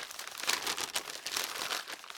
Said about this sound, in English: He felt a bundle of newspapers and pulled it out. He quickly unwrapped it.